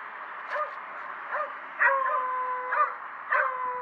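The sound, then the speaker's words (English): Dogs yipping and whining, several short, high yelps rising out of a steady whimpering background, with a thin sustained whine running through the second half. “These dogs.”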